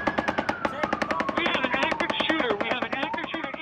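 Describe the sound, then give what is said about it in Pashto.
Rapid automatic gunfire erupts at an outdoor local music gathering in Las Vegas, a dense, loud, continuous string of many sharp cracking shots fired in quick succession. “د لاس ویګاس په ښار کې خلک د محلي موسیقي اوریدو ته راټول شوي ول چې یو ناڅاپه ډزې وشولې.”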